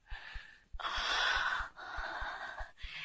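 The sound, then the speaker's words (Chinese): Deep breaths drawn and let out by a recovering king during a physician's examination: long, loud, airy rushes of breath, each lasting about a second, separated by brief pauses, with soft regular thumps beneath. “请你再听一遍，我再做一次深呼吸。”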